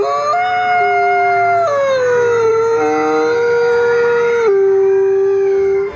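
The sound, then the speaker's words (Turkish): A wolf gives one long, loud, continuous howl that steps between pitch levels and then settles on a lower, steady tone near the end. No other sounds or voices are heard. “Slovenya'da çip takılarak takip edilen Slav isimli kurt eş bulmak için İtalya'ya kadar tam 2000 kilometre gitmiş, Lesinya Milli Parkı'nda eşini bulmuştu. Şimdi iki yavrusu var.”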